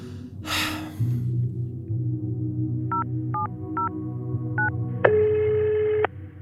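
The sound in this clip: Telephone line tones during a call: four short beeps in a quick row, then a longer steady tone, over a low constant hum.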